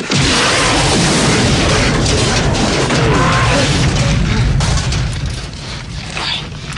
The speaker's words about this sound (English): They desert the stricken gunship, which explodes as Rambo runs for it.